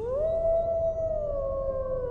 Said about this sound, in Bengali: দূরে শেয়াল ডাকছে